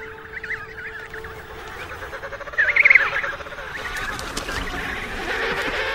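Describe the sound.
Penguin chicks call continuously, including an orphaned chick searching for a family, with reedy, honking cries overlapping throughout. One louder, wavering call rises out of the chorus near the middle.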